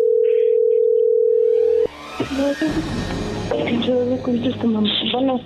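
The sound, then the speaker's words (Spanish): A telephone ringback tone plays while a number is dialed: one steady, mid-pitched tone lasts under two seconds, then cuts off as voices begin talking over a busy, dense background. “Le estamos marcando otra vez”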